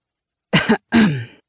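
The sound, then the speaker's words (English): A man clears his throat, a car driver, in a short rasping double burst followed by a longer, lower grumbling rasp, heard alone without talk. “Her driver cleared his throat.”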